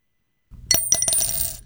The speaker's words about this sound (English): That's the sound of a single quarter dropping into a jar.